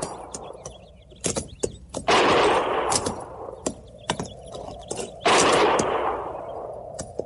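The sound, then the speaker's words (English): Gunfire sounds from a range of low hills about a mile away: many sharp, scattered cracks in irregular rhythm, broken by two longer roaring bursts of rapid fire. “Didn't sound like no regular shooting.”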